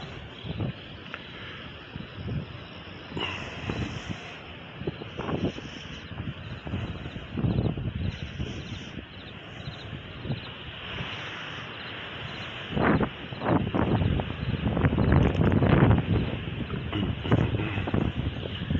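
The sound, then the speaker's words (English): Wind buffeting a microphone outdoors near the beach in Virginia Beach, a continuous low roaring rumble with repeated gusts that grow stronger and denser toward the end. “I guess this wind is going to be horrible on the podcast, but we're just going to have to deal with it, I guess.”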